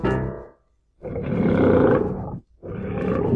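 A lion roars in deep, rasping bursts. The tail of one sound fades out, then after a short silence come two long, loud roars, the second still going at the end.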